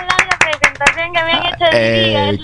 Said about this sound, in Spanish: los aplausos aquí en vivo y en efecto